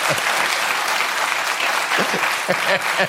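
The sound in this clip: An audience applauds in a strong, steady roar of clapping that fills the whole stretch, with voices breaking in over the later part.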